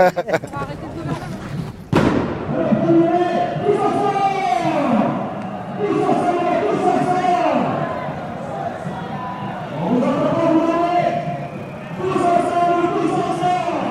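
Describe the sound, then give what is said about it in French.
A railway detonator struck with a sledgehammer on a piece of rail at a union May Day march goes off in one loud, sharp bang, followed by a crowd of voices carrying on around it. “Là, vous tapez dessus avec une masse, sur un bout de rail, et paf, et ça vous explose les tympans.”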